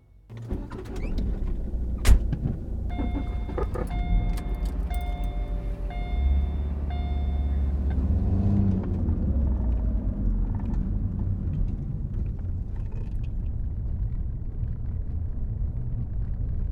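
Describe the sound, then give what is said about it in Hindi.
A car pulling away, its engine rumbling steadily throughout with a brief whirring mechanical whine early on, no voices. “करण की car में बैठकर वहां से जल्दी से निकलने के लिए कहती है”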